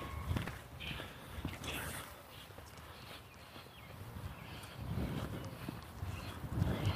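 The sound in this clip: Footsteps of someone walking outdoors on a raw, chilly, wet morning, soft and faint, falling in a steady, unhurried rhythm against a low background hiss.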